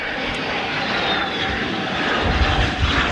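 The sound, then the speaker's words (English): Alpha Jet aircraft of a French aerobatic display team land at RAF Lossiemouth, a northern UK airbase, with a continuous broad jet roar. It holds fairly steady and swells slightly toward the end, with no voices. “Landing at the UK's most northerly airbase, the Alpha Jets of La Patrouille de France, on their way to a major celebration in the States.”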